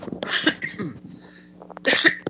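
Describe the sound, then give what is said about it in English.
A person coughs: a few harsh, loud bursts with a quieter, rasping stretch between them, then one final strong cough. “Excuse me. A little bit of a cough there.”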